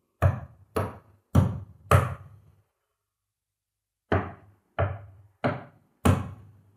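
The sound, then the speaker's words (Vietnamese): Knocking on a door in a pitch-dark house: four sharp knocks, a pause of about a second and a half, then four more in the same steady rhythm. “Những tiếng gõ cửa vẫn liên tục vang lên trong căn nhà tối đen như mực.”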